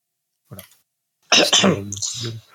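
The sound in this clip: Throat clearing from a person among people chatting about a video game: a short faint rasp, then after a pause a longer, loud, gravelly, voiced clearing that tapers off.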